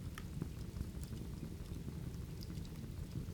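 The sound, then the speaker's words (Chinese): Rain falls as a faint, steady hiss of patter, with scattered sharper drop ticks and no voices. “听见了什么？雨声？”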